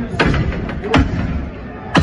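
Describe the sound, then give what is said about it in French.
Heavy bangs as protesters smash bus shelters in a Paris street where cars are burning. Three sharp impacts stand out over a rumbling crowd and street noise. “Des voitures sont en feu, des manifestants détruisent des abribus.”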